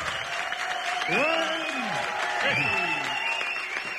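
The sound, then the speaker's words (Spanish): Loud applause and cheering from a studio audience, with whoops and shouted voices rising and falling over continuous clapping. “Así, ese entusiasmo del público que nos acompaña.”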